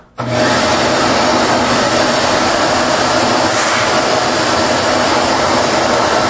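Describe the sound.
A large vacuum cleaner motor runs with no hose connected, starting abruptly and then holding a loud, steady, full roar with a constant whooshing hiss of rushing air for several seconds.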